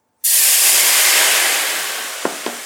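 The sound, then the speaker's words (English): Marsala wine hits a hot pan and erupts into a loud, broad sizzle while the pan is deglazed, the hiss slowly easing over a couple of seconds before two brief taps near the end. “So that means I'm going to pour the Marsala wine in. It's going to sizzle like crazy.”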